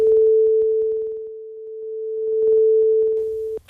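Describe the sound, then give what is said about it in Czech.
A sonified tone whose loudness follows changes in a star's brightness: one steady, unwavering mid-pitched note fades to its quietest around the middle, swells back up, then cuts off abruptly just before the end. “Za prvé jsem změny jasnosti převedl na změny intenzity zvuku. To znamená, že nízká jasnost odpovídá nízké intenzitě, maximum jasnosti potom odpovídá vysoké intenzitě zvuku. To byla ta první ukázka a zní takhle.”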